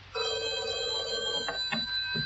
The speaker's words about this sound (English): Answer that other phone, Constable, will you?